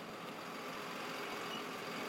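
A trolley engine runs in Danville, Virginia, giving off a steady, low idling rumble with a broad hiss on top, even in loudness and unbroken for the whole stretch, with no voices.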